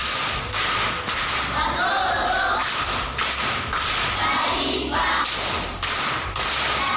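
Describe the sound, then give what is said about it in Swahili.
Loud clapping from a school quiz audience applauding a contestant after a correct answer, dense and sustained with a few brief dips, faint voices beneath. “Haya, makofi kwa mjomba.”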